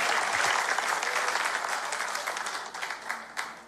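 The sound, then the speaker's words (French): A church audience applauds during a French-language sermon, acclaiming the Lord. The loud clapping swells early, then slowly thins out, leaving a few separate sharp claps near the end. “Amen. Acclamez le Seigneur pour ça.”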